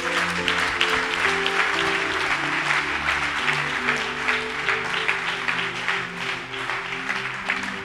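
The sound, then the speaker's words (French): A church audience applauds, with dense, steady clapping for about eight seconds over held musical tones. “Est-ce que tu peux acclamer Dieu pour ta vie?”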